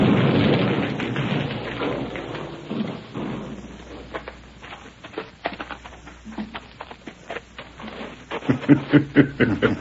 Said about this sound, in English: That blast let go just when they was riding in